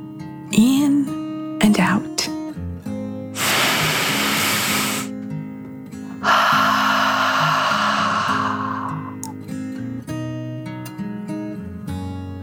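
Deep, drawn-out breaths, in and out, as if from a dragon: two long, loud, airy whooshes over soft sustained music, with a few short sounds before them.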